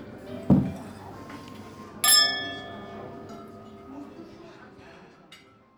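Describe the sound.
Glasses clinking in a wine toast: one bright, ringing chime that slowly decays, preceded by a dull knock.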